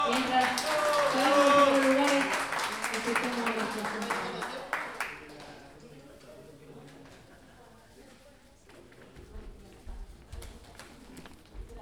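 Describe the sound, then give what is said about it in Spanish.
Applause at a pie forzado improvised-verse tournament, loud clapping mixed with voices at first, fading after about five seconds into quieter murmurs with scattered claps. “Un aplauso,”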